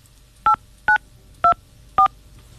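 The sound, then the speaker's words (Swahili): Four DTMF tones sound from a phone keypad as a call is dialed. The short, loud, even beeps are evenly spaced with silence between them. “E basi, wacha nimpigie mama Evelyn. Please enter your complete PIN number.”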